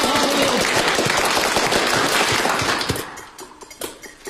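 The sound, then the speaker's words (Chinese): A crowd claps after a winner of a youth music contest is announced. The clapping is dense and crackling for about three seconds, then thins abruptly to a few scattered, separate claps. “鼓掌”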